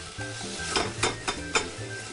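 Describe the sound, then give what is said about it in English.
Tomatoes and sofrito vegetables sweat gently in a pan with a steady, soft sizzle. Four brief stirring scrapes break the sizzle at regular intervals. “I really like the flavor of the gently sweat vegetables in here. These are cooking nicely. Our tomatoes are cooking nicely.”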